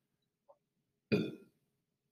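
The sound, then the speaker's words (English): A single short burp, a low, rough, throaty blast lasting under half a second, loud against near silence, with a faint brief click shortly before it. “Excuse me. Oh, I burped again.”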